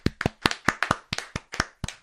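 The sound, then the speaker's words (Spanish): Hand clapping at a community radio gathering in a social and cultural center, a steady series of sharp, separate claps in an even rhythm, each crisp and distinct with brief silences between. “Aplausos.”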